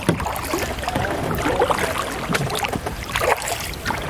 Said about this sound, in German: Oh Gott, da kommt ein Kahn. Hier ist so viel Verkehr